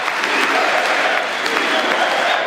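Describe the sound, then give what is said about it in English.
Cheering and applause from lawmakers in a congressional chamber during a joint session address, a dense, steady wash of clapping and crowd noise that stays loud and even throughout, with no single voice standing out. “From the moment he entered the chamber, he was greeted by Republican cheers”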